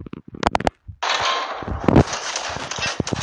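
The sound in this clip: Video game gunfire during a headshot: a few sharp, cracking shots followed by a dense, sustained burst of loud noisy blasts.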